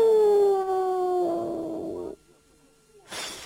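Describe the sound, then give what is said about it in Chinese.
A voice imitates wind howling outside a bedroom door at night with a long, drawn-out 'woo' that slowly falls in pitch for about two seconds, then a brief quiet and a short breathy burst. “刘秀倒在床上似睡未睡，忽然间就听到这个房门外一阵风响，呜，”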